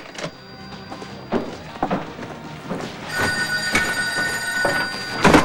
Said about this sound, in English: He picks up and replaces the receiver of the ringing phone.